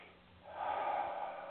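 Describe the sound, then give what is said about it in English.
A single breath is drawn in, a soft airy hiss that starts quiet and swells, then holds steady to the end. No one talks. “Give me a moment here. Take a little breath.”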